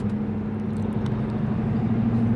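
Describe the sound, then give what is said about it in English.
Car engine accelerating onto a mountain highway toward 50 miles per hour in the early morning, heard as a steady, loud low hum with a strong droning tone and constant road noise, without voices. “Making my way onto the Catoctin Mountain Highway as we speak. As I accelerate to 50 miles per hour,”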